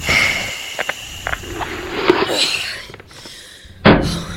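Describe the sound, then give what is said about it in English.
A habitat airlock door opens after repressurization on the moon: a few soft clicks and faint hissing, then a sudden loud burst of air near the end. “let's depressurize, have a dust up, then come back and repressurize again. Atmosphere restored. Opening habitat.”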